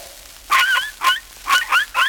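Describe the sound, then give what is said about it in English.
A voice imitates a toy dog barking with four high, yapping bow-wow sounds. Each bark is short with a quick pitch bend, evenly spaced and fairly loud, with no other talk. “This little dog”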